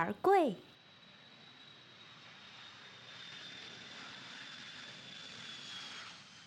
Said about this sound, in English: We've been cleared for landing.